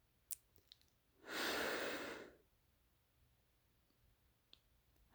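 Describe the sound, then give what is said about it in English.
A single deep breath drawn in, a steady rush of air lasting about a second that swells and fades, with a few faint clicks before and after. “Let's take a deep breath in together.”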